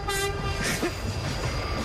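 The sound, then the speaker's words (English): A train horn sounds as a sustained, rich harmonic blast held through the short clip, over a rumbling rail background. “There you go. That's the sound of the horn.”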